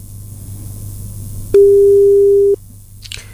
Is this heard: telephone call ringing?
yes